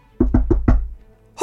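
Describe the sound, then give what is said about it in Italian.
Knocking on an enormous shoe sole: four dull, heavy thuds land in quick, fairly even succession, each with a booming low body, followed by a pause. “Con tutta la forza che ha, prova a bussare su quegli affaroni.”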